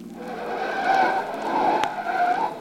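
Car tires skid with a sustained screech as the car takes a corner at speed during a chase. The squeal swells and holds for about two seconds over engine noise, then fades slightly at the end.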